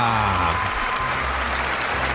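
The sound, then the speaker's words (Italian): Applause from a person's loved ones on an Italian show, a dense, continuous clapping that starts under a brief voice and then continues steadily alone. “Lasciamo all'applauso dei suoi cari. Prolungalo più che puoi”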